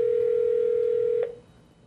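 A telephone ringback tone heard while placing a call: a single steady mid-pitched tone holds for just over a second, then cuts off into near silence.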